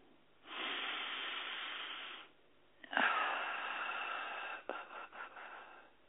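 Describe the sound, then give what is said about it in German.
Deep breathing during a guided relaxation exercise: a long, airy inhale, then a long hissing exhale, followed by a few shorter breathy puffs. “Einatmen, ausatmen, weit werden.”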